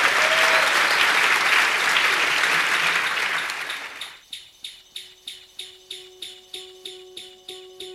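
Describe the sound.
Audience applause welcoming a guest at a live show: dense, loud clapping fills the first half, then fades out and gives way to a steady, regularly repeating rhythmic pulse.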